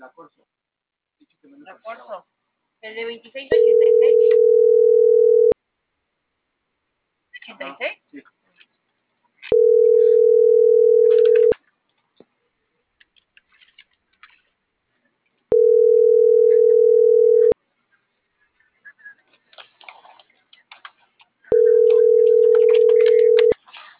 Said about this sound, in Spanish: Estoy marcando una. No sé por qué no me marca.